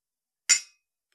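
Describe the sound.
Glasses clink once in a toast, a single short, bright strike with a quick ringing decay, alone against silence.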